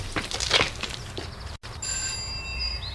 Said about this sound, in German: klingelte am Portal der Villa